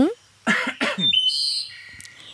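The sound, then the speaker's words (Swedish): Two rough, voiced bursts of throat clearing in quick succession, loud and alone, followed by a thin high whistling tone that lingers faintly for about a second. “får jag harkla mig?”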